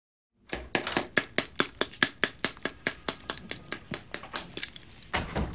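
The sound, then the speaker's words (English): Paddle ball play by Roger in his office in Mad Men: many sharp, evenly spaced wooden smacks in a quick steady rhythm, each a crisp tap, with no talk. “this third, hilarious match cut shows Roger in his office, playing with a paddle ball.”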